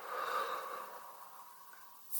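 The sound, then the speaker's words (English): Deep breathing in and out during a guided journaling exercise: one long, airy breath fades steadily over about two seconds, then the next breath begins with a sudden bright hiss. “Let's breathe in. Breathe out. Breathe in. Breathe out.”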